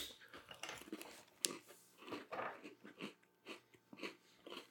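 Faint chewing of a plain vanilla Oreo cookie, with soft crunchy bursts of biting and munching in an uneven rhythm, close and quiet.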